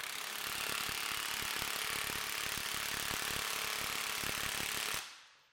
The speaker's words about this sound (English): Here's the grade 1 versus an M18 mid-torque in setting 2 of 3 on that gun.